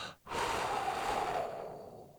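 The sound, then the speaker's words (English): A person takes one deep breath, a loud, airy inhale that swells quickly after a short silence and holds for about two seconds before easing off, with no other sound. “that's me taking a deep breath. Take a deep breath.”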